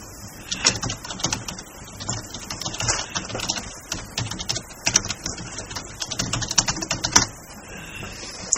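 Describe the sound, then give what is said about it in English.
Typing on a computer keyboard: many quick, light key clicks in irregular bursts and runs, fairly faint and steady over several seconds, with no voices. “I'll type this in the RC room.”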